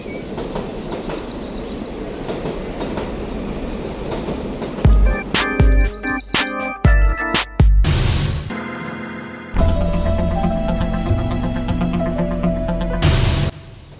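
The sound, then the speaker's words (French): A regional TER train pulls slowly into a station with heavy rolling rail noise. A burst of sharp clanks and knocks sounds midway, followed by a loud, steady grinding drone. “Le bruit du train couvre celui de ses pas.”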